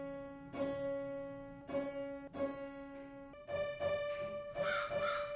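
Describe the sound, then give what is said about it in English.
A crow caws several times, harsh rasping calls in short bursts, set over steady sustained musical tones, with no talking. “It's crow. C'est un corbeau, c'est pas une corneille.”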